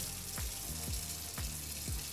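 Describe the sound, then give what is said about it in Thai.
Dishes with overnight grease stains are washed in a sink with yuzu-scented dish soap, making faint running-water noise broken by a few quick sloshing splashes. “ปกติพี่ไม่ค่อยชอบล้างจานเท่าไหร่อ่ะแต่พอได้สไลด์สูตรใหม่กินยูสุมานี่ทำให้พี่ล้างจานง่ายขึ้นเยอะเลยพี่ล้างจานก่อนนะ”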